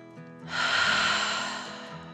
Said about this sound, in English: Then they all took one more deep dragon breath in and out.